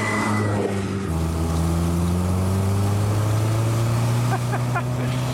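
Steady engine drone of a Mini car pulling out onto the road. The low, buzzing hum holds fairly even throughout and stays loud from start to finish.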